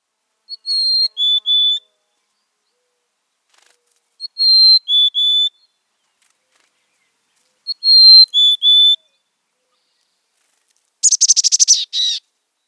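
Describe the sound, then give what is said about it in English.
A mountain chickadee sings three clear, high whistled phrases, each of a few sweet notes separated by pauses. A short, rapid buzzy burst of chattering notes follows at the end. “Now let's listen to the mountain chickadee song.”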